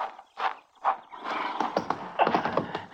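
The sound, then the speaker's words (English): A lame horse makes two short, breathy vocal bursts, then a longer rough, noisy stretch full of rapid pulses that continues to the end. “My horse is lame, but I'll get you home on him.”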